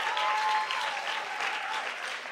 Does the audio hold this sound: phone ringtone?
no

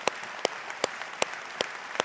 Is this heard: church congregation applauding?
yes

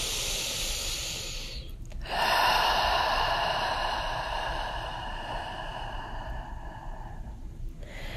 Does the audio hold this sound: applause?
no

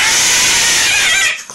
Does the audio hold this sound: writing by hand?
no

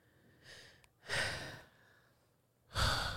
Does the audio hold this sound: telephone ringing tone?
no

